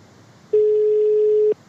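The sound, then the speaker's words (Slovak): A telephone call tone sounds as a single steady, pure mid-pitched beep lasting about one second, loud and alone, with faint hiss before and after. “chvíli volať Milana Uhríka. Neviem, či do ďalekého Bruselu.”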